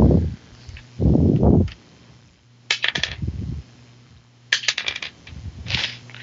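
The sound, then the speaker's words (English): Dice clattering on a table during a tabletop role-playing game session, heard as short bursts of sharp clicks and rattles with brief rustling and low thumps between them, and no voices. “Okay. That's too many dice. Stop rolling that many dice.”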